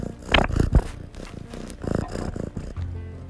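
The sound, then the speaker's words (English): A pet cat purring, a rough, low rhythmic rumble of uneven pulses with a few louder breathy bursts, moderately loud throughout. “I don't know if you heard that, but that's my cat saying hello.”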